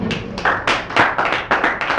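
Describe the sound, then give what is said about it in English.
A few irregular, sharp handclaps from an audience at a small film festival party, loud and uneven in rhythm, without talk. “And I would like to hear some applause for that.”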